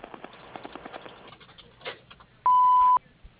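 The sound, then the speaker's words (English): Answering machine tone at a clothing business: one steady, fairly high electronic beep lasting about half a second, sounding alone after soft, scattered clicking. “At the sound of the tone, leave your name, number, and a brief message.”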